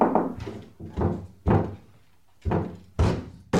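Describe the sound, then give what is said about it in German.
A locked wardrobe door is forced open from inside. Several dull, quiet thuds and knocks come at uneven intervals as it is pushed hard. “Mit ein bisschen Kraft lässt sich der Schrank von innen aufdrücken.”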